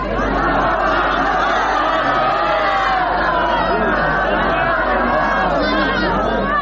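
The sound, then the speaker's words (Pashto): Hundreds of people in a stadium in Lashkar Gah, Helmand, celebrating a ceasefire: loud, continuous crowd chatter mixed with shouting voices, with no pause throughout. “د لشکرګا په کرزینو مې لوبغالي کې سلګونه کسان د تاوتریخوالي د کمښت د اونۍ جشن ته راوتلي دي. دوی په ډیر هیجان او خوشحالۍ ویناوې، ګډا او اترونه کوي”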